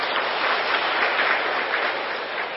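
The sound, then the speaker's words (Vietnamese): Audience applause at a Vietnamese gathering after people raised their hands: a steady, even wash of many hands clapping, moderately loud and unbroken from start to finish. “Ôi, hoan nghênh cho tất cả các vị.”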